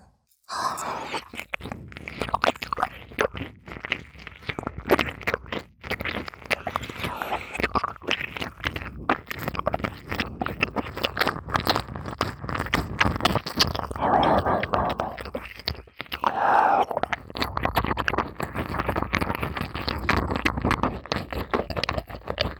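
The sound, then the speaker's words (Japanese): Biting and chewing on an apple, with steady moist crunching and munching, brief pauses, and soft breaths between mouthfuls. “今食べてあげますからね。”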